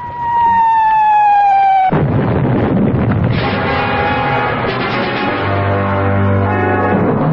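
A whistling tone with slightly falling pitch ends in a loud blast during a bombardment, followed by a sustained rumbling roar and a second surge of noise.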